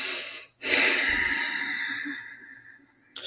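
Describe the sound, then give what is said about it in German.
A deep breath taken as a calming exercise: one long, airy breath swells quickly, then slowly fades over about two and a half seconds, and another breath begins right at the end. “Einfach mal durchatmen und einen langen Ausatmen.”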